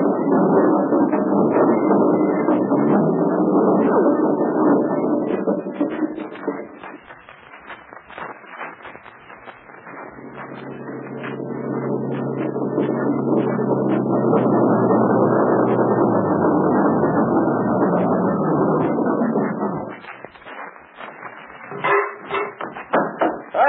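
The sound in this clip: A car takes off and drives on with people hanging on its outside: a loud, sustained engine roar that eases off for a few seconds, builds back to full strength, then drops again near the end amid rattling bursts.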